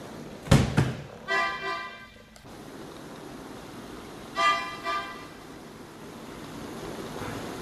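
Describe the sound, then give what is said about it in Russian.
A car horn honks as a car arrives: a longer toot, then a shorter one a few seconds later, over a faint steady hiss. “Вы слышите? Машина уже здесь.”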